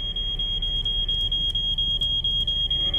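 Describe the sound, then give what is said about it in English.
A smoke alarm on a ceiling beeps in a fast, steady run of many shrill, high-pitched chirps, loud and alone over a low background rumble. “She turns sharply towards the smoke alarm on the ceiling.”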